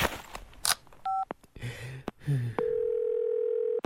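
Telephone tones sound while a call is placed in a comedy sketch: a brief two-tone beep and a few clicks and rustles, then a steady continuous dial tone running to the end.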